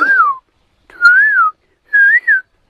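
A person whistles an imitation of a small black songbird's rising song: three clear whistled phrases with short pauses between them, each pitched slightly higher than the last.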